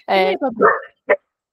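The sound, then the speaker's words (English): A dog gives a few short barks and yelps in quick succession, then one brief yip after a short pause. “Sorry, Ted is just rolling around. It's fine. It's a podcast about dogs.”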